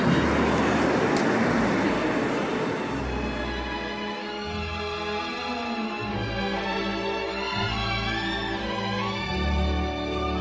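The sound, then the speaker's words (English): Steady road and engine rumble from a car driving through city streets toward Skid Row in Los Angeles, a continuous low drone with broad noise throughout and no voices. “So currently I'm driving down towards Skid Row, an area of Los Angeles that's known as being incredibly dangerous”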